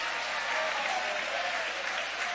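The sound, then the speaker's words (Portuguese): Congregation applauding the name of God during a church service: dense, steady clapping fills the whole clip at an even level, with no voices standing out. “Levante a sua mão e vai aplaudindo o nome dEle.”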